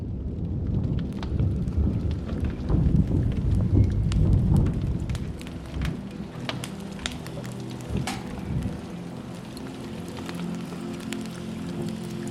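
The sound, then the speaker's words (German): A thunderstorm, with rain pattering against castle windows. A deep rolling rumble of thunder dominates the first half, then fades, leaving a steady patter of raindrops with scattered sharper drips. “Die ersten Regentropfen prasselten gegen die Fenster des Schlosses und der Wind begann zu heulen.”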